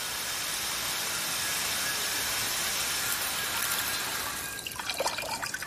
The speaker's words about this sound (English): In the vegetation plot, the sprinklers turn on. The water sprays into a variety of bowls and jugs laid out on the dirt beneath the sprinkler heads.